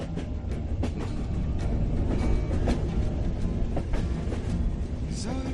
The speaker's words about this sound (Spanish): Estamos escuchando justamente el tren en el que estamos subidos